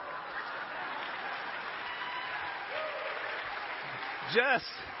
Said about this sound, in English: All right, another round of applause, especially Fellowship Center.